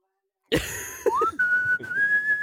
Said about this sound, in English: really determined to make sure he's whistling into the microphone